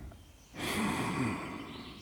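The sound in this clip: One long, deep breath drawn in during a guided relaxation exercise while leaning against an old tree. The breath is soft and airy, starts after a short quiet moment, and lasts about a second and a half.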